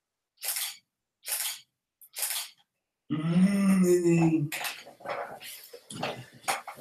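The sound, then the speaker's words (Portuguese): Camera shutter clicks as a photo is taken: a few short, sharp mechanical snaps with silence between, followed by people talking. “Tira foto. Aperta aqui pra tirar.”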